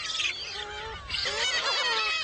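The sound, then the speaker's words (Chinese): Bird chicks squabbling over food on an island in early summer, a loud, continuous tangle of harsh, overlapping honking cries and squawks with no pause over about two seconds. “现在是古吉岛的初夏世界，雏鸟们为争抢食物开始了吵闹。”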